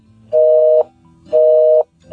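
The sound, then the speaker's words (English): Telephone busy signal: a steady mid-pitched tone pulsing on and off in an even rhythm, two full beeps of about half a second each and the start of a third, loud and alone. “I think they took their phones off the hook, because I don't understand how they could be busy.”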